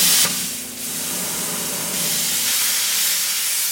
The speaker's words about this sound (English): They use a torch to score the head of the statue in the